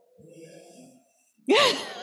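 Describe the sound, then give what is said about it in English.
Deep breathing from an audience during a talk on anxiety and prayer: faint, soft breathing, a short pause, then one loud sighing exhale near the end. “And everybody take a deep breath. Just like. Take another one.”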